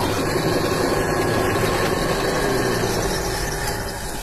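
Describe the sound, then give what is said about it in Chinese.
An electric grinding-wheel motor at a small shop runs while ice skate blades are sharpened. A loud, continuous whirring roar carries a high grinding whine, steady and unbroken throughout. “小店的外头摆放着两个台子，一个是电砂轮，一个是人工的，根据不同冰刀选择不同机器。”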